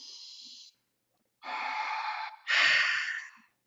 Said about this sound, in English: Breathe in and hold.